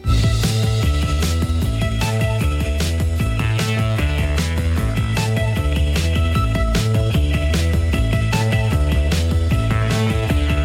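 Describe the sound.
A Spanish rock band plays a cover version of a song set to a poem. Drums, bass and guitars drive a loud, steady, dense mix that runs without a break.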